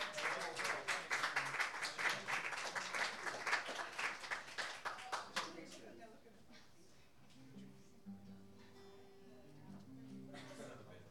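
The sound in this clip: Audience applause welcoming a singer: many hands clap steadily for roughly the first half, then the clapping fades out as soft tonal music takes over.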